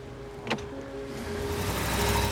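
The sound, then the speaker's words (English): A taxi cab drives off, its engine hum growing steadily louder and rougher, with a brief click near the start. “The cab drives off”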